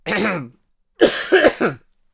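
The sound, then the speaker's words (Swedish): Harsh, choking coughs from someone whose drink or food went down the wrong way, a few quick rough bursts following a brief voiced sound from the throat. “Vad hemskt vad det kom i fel strupe.”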